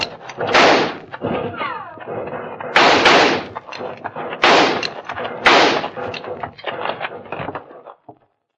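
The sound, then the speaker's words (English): Gunfire volley in a western canyon ambush: several loud, sharp blasts at irregular intervals, with smaller cracks and thuds between them. “They quit firing. I guess they must be reloading.”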